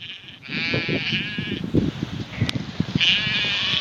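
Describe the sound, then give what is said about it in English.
Herdwick lambs bleating on a Cumbrian hill farm: a few long, quavering high bleats stand out over a steady rush of wind and scattered soft knocks. “And here's a little sound. This is of Herdwick lambs, the breed he raises.”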